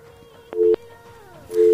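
Telephone busy signal on a troubled call-in line: two short, steady mid-pitched beeps separated by a pause, heard over faint background noise.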